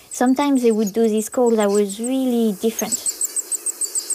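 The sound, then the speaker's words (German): Short high calls from a bird parent alone with its eggs in a nest, many brief chirps in a quick steady series that follow a stretch of talk. “Und da habe ich gemerkt, dass manchmal, auch wenn nur ein Elternteil allein mit den Eiern im Nest war, es diese Laute geäußert hat, die ganz anders klangen als sonst.”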